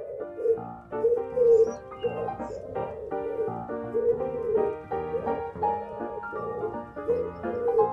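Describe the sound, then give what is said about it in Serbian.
Pigeons cooing on a roof: a continuous run of low, warbling coos that rise and fall and overlap one another at moderate loudness. “Probudiš li se pre buđenja, čućeš golubove, bištu se i tuku samo uspavane pernate grudve, guguče krov.”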